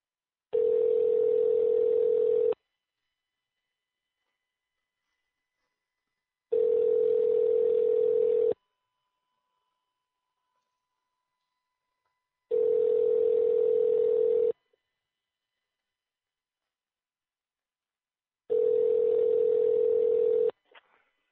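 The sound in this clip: A Skype call's connecting tone sounds as four steady, even beeps, each about two seconds long and separated by roughly four seconds of silence, with no talk.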